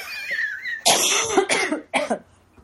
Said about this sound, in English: I'm about to cough again.